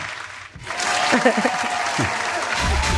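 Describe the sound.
Audience applause and cheering to welcome two guests, with loud, steady clapping and shouting voices that swell in after a brief quiet moment and carry on to the end.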